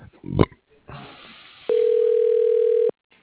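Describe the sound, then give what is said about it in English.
A telephone line tone while a call is transferred, a single steady electronic tone lasting just over a second, preceded by brief clicks and line noise. “Thank you. Your call is being transferred.”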